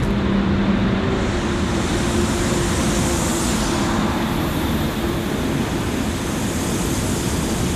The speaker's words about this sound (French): Vichy, ici Vichy, assurez-vous de n'avoir rien oublié dans le train.